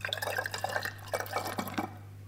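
Liquid sloshes and splashes as alcohol and a vinegar bacteria culture are shaken together in a glass pickle jar, giving many quick wet bursts in an uneven rhythm over a steady low hum.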